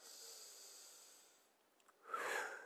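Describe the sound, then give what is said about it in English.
A deep breath taken alone, with no talk: a long, soft, airy rush of breath that fades, then a stronger, snort-like burst of air near the end. “Let me take a deep breath, y'all, because this is a whole lot for me.”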